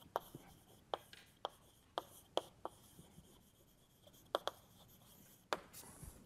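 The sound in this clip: Chalk or marker strokes on a board during a physics lecture: a series of sharp scratches and taps, some spaced apart and some in quick bursts, over faint room hiss with no talking.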